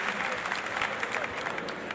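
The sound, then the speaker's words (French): Audience applause sends off a departing guest at a French-language music event: loud, dense clapping from many hands, continuous and even throughout, with no break in the sound. “Applaudissez-la pour la raccompagner, s'il vous plaît.”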